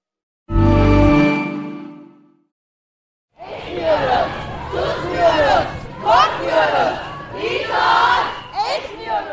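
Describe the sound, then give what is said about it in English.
Protest crowd in Turkey chanting and shouting together in loud rhythmic surges, after a brief sustained low tone and a short silence. “I'm at a protest in Turkey.”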